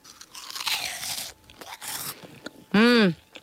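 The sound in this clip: Bites into crunchy, ring-shaped, cheese-flavoured corn puff snacks: two loud, crackling crunches, then a short hummed vocal sound.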